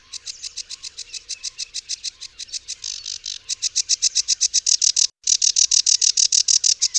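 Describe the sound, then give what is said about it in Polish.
A sedge warbler sings a very fast, lively song of long runs of similar high chirps. The notes grow quicker and louder partway through, a short gap breaks the run near the end, and then the rapid series continues. “Piosenka Rokitniczki jest szalenie szybka i żwawa.”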